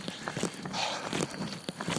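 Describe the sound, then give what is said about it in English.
A person's running footsteps on the way back from a run, soft and steady. Many rapid, evenly spaced footfalls form a quick, regular rhythm. “And one of the reasons I recorded while running on the way back is to keep me going slow enough, right?”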